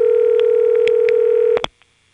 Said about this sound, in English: is a ringtone being generated by what is essentially an old-fashioned ringing machine, but the tone frequencies used are the same as in modern ring.